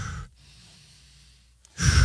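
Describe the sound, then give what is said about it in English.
Deep breathing close to the microphone: a loud, rushing breath at the start and another near the end, separated by a long stretch of near silence. “Give me 3 deep breaths.”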